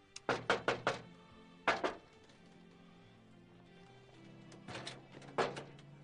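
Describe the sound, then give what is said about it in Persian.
Knuckles rap on a door in short, sharp bursts: a quick run of about four knocks, a pause, two more, then a final cluster of knocks after a longer quiet gap. “شاید نامحرم باشه. سب کن در بزن.”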